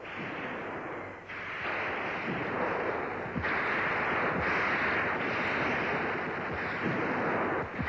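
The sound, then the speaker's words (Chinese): Gunfire from soldiers shooting at advancing enemy troops in a battle: several sharp shots crack out one after another over a constant roaring, windy wash of noise. “战斗中，战士们对准肆无忌惮进犯的敌人，瞄准射击。”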